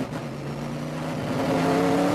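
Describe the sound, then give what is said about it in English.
A powerful car accelerates in first gear on a track straight, spinning its rear tire: a steady engine roar whose tones climb gradually while it grows slightly louder, with no talk. “we'll come around the straight and you'll see in first gear it'll just light up the rear tire. So you go around in first gear.”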